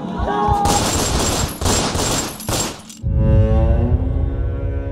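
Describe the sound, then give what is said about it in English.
Gunfire in an armed attack on a home in Bangladesh: dense, rapid bursts of shots for about three seconds, followed by a lower, continuing rumble. “They open fire.”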